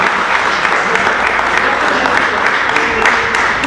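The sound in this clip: Audience applause at a public talk: a loud, dense, continuous roar of many people clapping that holds steady for the whole stretch, with a few sharper claps poking through.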